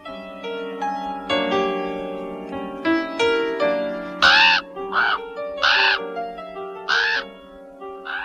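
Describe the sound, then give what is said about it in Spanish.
Harsh raven caws, a few loud rasping calls in irregular succession, cutting through sustained, swelling orchestral music. “El cuervo enronquece de tanto graznar que el rey Duncan llega al castillo.”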